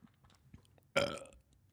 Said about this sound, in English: What are you what was the long pause for? Because I had a burp.